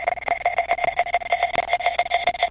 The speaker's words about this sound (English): And then the second half of this pre-chorus, I have these square pops.